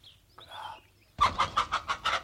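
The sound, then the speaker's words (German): A hen clucks in a quick, loud run of evenly spaced clucks that begins abruptly after a few faint, softer sounds. “Verdammte Henne. Du wirst nicht mehr singen.”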